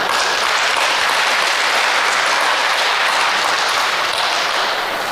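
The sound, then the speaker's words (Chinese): Audience applause from a stage show, many hands clapping in a dense, even, loud wash that holds steady for several seconds and eases slightly at the end. “听明白这阵掌声了吗？ 这不召唤吗？”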